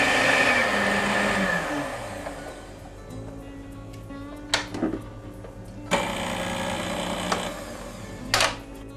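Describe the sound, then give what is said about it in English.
Electric hand mixer beaters whipping sugar into stiff peaks, a steady buzzing motor whine that drops in pitch as it winds down, followed by a few sharp clattering knocks. “Gradually add the sugar till you get the stiff peaks. See how nice and high it is? Stop your beaters.”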